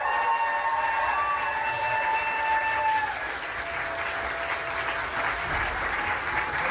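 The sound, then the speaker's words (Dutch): Supporters cheer, jeer and applaud in a courtroom, a standing ovation after a prison sentence is handed down. Dense, steady clapping and crowd noise fill the whole clip, with sustained high shrill tones through the first three seconds. “Ja, we horen gejuich, gejoel.”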